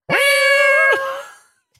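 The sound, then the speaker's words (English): A single loud cat meow holds a steady pitch for most of its length, then drops off sharply at the end, leaving a brief fading tail with nothing else around it. “That's a cat.”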